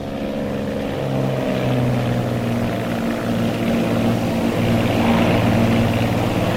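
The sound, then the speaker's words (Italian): Twin-engine Bonanza propeller airplane taking off from Los Angeles with gear up, a loud, steady droning hum with sustained engine tones and no voices. “Controllo partenza Los Angeles, doppio bonanza 696 Tango in volo, 25 sinistre.”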